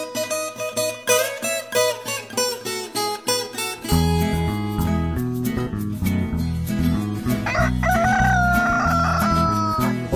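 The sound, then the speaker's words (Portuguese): A rooster crows over rural country music, its call rising above strummed notes and a dense, steady backing that carries on throughout. “galo cantou”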